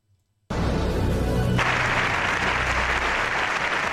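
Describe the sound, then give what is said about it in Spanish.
Sustained audience applause for a president in Spain's Congress of Deputies: a dense, loud ovation that bursts in after a brief near-silence and continues steadily to the end without a break. “Ovación al presidente.”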